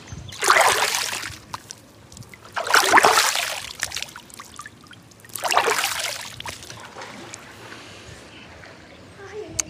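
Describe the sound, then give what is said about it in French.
Splashing water in a swimming pool at a residential complex: three loud surges of splash and spray, each rising and then trickling away, with a quieter lull of dripping water after the last. “Bon, vous aurez compris, je suis à la piscine de ma résidence.”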